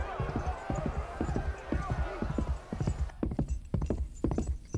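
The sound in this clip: Horse hoofbeats in a steady clip-clop rhythm, many loud, closely spaced hoof strikes that carry on throughout.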